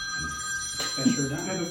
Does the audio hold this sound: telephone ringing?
yes